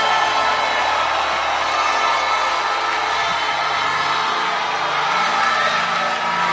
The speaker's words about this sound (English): Why don't you stand to your feet? Let's put our hands together as we welcome our Father, Prophet Bishop Dagiwad Mills.